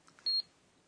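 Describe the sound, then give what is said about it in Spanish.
A cash register beeps while scanning a barcode: one short, high-pitched electronic beep, sharp and clear. A couple of faint ticks come just before it, and quiet follows. “Es una caja registradora leyendo códigos de barras.”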